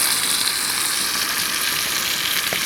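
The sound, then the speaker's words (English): Bacon sizzling in a very small, crowded pan at a campsite in a provincial park, with half a pack dumped in all at once. A dense, steady crackle and hiss continue throughout, with no voices. “I brought half of it with me because I love bacon. So I'm cooking that right now. Unfortunately, my pan that I'm using is incredibly small”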